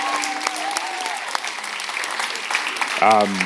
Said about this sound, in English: Can we give a can we give a hand to the worship team for leading us tonight?